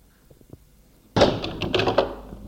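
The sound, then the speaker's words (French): A door opening with a sudden loud thunk, followed by rattling and clattering that continues for over a second. A few faint taps come before it. “La porte s'est ouverte.”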